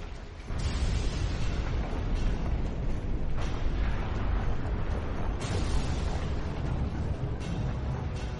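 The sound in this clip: Rumbling explosions boom down from a sky of mud and earth, a continuous heavy roar with a few sharper blasts rising out of the din.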